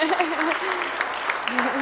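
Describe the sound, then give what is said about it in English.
Applause at a church service for an orphanage, many hands clapping in a steady, moderately loud patter while a voice carries over it. “Let's give them a hand.”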